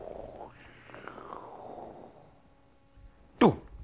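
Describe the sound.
A voice imitates an arrow being shot, with a drawn-out, low whooshing vocal sound followed near the end by one sharp, loud burst.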